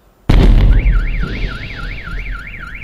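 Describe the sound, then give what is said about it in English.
A sudden, heavy blast from an asteroid explosion booms with deep rumble. Right after it, a car alarm starts a steady warbling siren that rises and falls over the fading rumble. “this is a compilation of the blast videos.”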